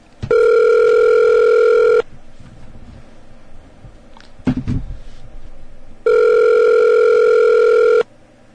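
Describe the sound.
Ringback tone from a telephone while a call is being placed: two steady, loud, buzzy tone bursts of about two seconds each, separated by a long quiet gap with a brief low thump and faint background noise.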